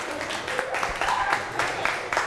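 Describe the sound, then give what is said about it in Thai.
Students in a Thai classroom clap for a classmate who just answered. Many quick, uneven claps of moderate loudness keep going in a loose patter. “นั่งลงได้อัพปรบมือให้เพื่อน”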